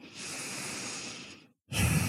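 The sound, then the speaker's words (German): Deep, deliberate breathing: a long, airy inhale of about one and a half seconds fades out, a short silence follows, then a strong, breathy exhale begins. “In diesem Moment atme gerne mal etwas bewusster und tiefer ein und aus.”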